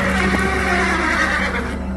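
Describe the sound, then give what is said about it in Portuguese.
A horse neighs loudly, a sustained whinny with strong, wavering tonal harmonics that fills the short stretch and tapers slightly at the end. “Olhei e vi um cavalo amarelo. O seu cavaleiro se chamava Morte.”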